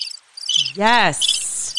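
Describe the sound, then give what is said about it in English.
Crickets chirping in rapid, high-pitched pulsing trills, fairly loud and continuous, with a short spoken word cutting in briefly midway. “Yes, crickets. You hear that?”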